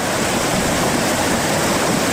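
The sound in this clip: Water flows steadily down a stream that is still running full, with a wooden bridge laid across it. The sound is a continuous, even rushing and splashing with no breaks or voices.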